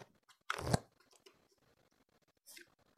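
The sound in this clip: A tarot card is drawn from the deck with a brief, crisp papery rustle and snap, followed later by a second, softer shuffle, all faint.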